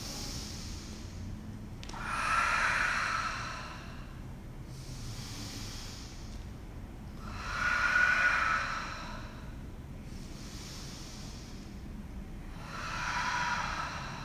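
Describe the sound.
Slow, audible breaths from someone holding a yoga pose in a warrior stance with arms reaching up, five airy hissing breaths at an even rhythm every few seconds, alternating stronger and softer, with no talk.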